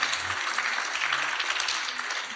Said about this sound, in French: applaudissez un petit peu